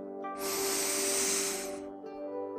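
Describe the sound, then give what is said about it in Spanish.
A deep breath is drawn in during a guided relaxation exercise: a long, airy inhalation lasting about one and a half seconds. It rises and fades smoothly over a soft, sustained musical drone. “Cierra tus ojos y respira profundo.”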